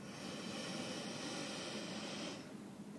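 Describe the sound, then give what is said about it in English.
A deep breath drawn in during a breathing exercise: a steady, airy hiss that holds for about two and a half seconds and then tapers off at the end. “take a deep breath in”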